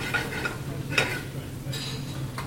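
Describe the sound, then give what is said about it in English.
Sizzling pan of seasonal carrots and purple sprouting broccoli frying in butter with salt and pepper. A steady hiss runs throughout, broken by a few short stirring scrapes and clinks. “we're just actually pan frying now the new seasonal carrots that we've just jumped into a chiffon pot, and the purple sprouting broccoli just with a knob of butter and some salt and pepper.”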